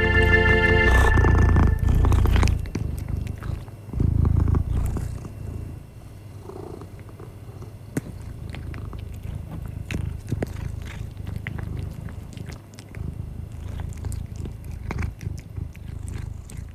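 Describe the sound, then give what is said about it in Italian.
A cat purrs and shifts about. A loud, steady purr fills the first two seconds, then returns briefly. Quieter purring follows, scattered with small clicks, rustles and chewing-like sounds. “E si può sentire appunto i movimenti, i suoni, rumorini e purpur di un gatto.”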